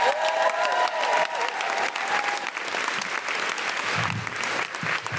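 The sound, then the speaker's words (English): Audience applause at a live show in Brighton welcoming the host onto the stage: dense, even clapping from a crowd that keeps up a loud, continuous patter for about five seconds. “Fabulous people of Brighton, would you please put your hands together and welcome Deborah Frances White?”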